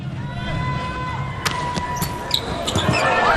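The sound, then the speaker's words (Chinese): A sharp single smack of a volleyball serve during an international volleyball match, standing out over steady crowd noise, followed by a few fainter knocks as the rally continues. “好发球啊！”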